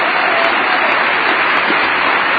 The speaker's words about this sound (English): What's the percentage of the State of the Union address that's applause?